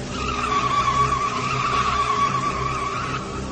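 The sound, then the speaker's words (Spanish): Tires screech in a sustained skid as a car's driver loses control, a loud, steady squeal that holds for several seconds with the hum of the vehicle underneath and no voices. “Fue tal su impresión que perdió el control del volante”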